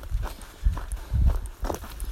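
Brisk footsteps of someone walking quickly, several soft, thudding steps in a quick, steady rhythm.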